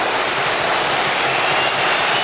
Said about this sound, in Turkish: Genç Yunus Akgün'ün şutu tribünlerden büyük alkış aldı.